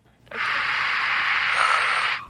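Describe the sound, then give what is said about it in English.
A long, deep breath drawn in steadily for about two seconds, a soft airy rush that starts abruptly and fades at the end, with no voices. “Take a deep breath. You take a deep breath.”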